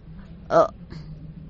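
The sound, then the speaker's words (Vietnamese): A single short, sharp hiccup comes from someone hidden under a dark table, loud against a quiet low background, followed by a much fainter small sound. “Tiếng nấc vang lên dưới gầm bàn đen ngòm.”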